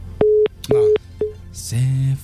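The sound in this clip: A telephone call signal sounds as three mid-pitched electronic beeps. The first two are even and about a quarter second long, the third is shorter, and a different sustained sound follows.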